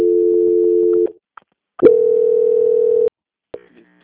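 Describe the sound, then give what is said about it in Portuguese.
Steady telephone line tone during a call transfer: two long, loud sustained tones separated by a short gap with a click. The second tone cuts off abruptly, and a brief click and faint tone follow. “Vou pedir para a senhora aguardar um momento na linha, que agora eu vou transferir a ligação para a auditoria e finalizar com a senhora. Só um momento. Transferência.”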